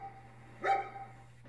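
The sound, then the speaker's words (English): A hound gives one short, sharp bark, faint over a low, steady hum, with quiet before and after it. “The barking is getting closer.”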